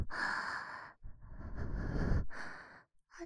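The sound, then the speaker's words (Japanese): Hot breath is exhaled close to the microphone in slow, airy sighs: three long breathy exhales separated by short pauses, then a brief fourth puff at the end, with no speech. “熱い吐息と私の吐息まみれのお耳感じてますか？”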